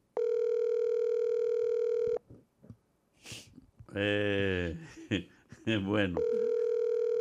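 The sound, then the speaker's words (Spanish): Ringback tone of an outgoing telephone call: a steady, buzzy tone lasting about two seconds, then people talking, then the same tone starting again. “Estoy llamando. Que está muy temprano. No se lo van a coger.”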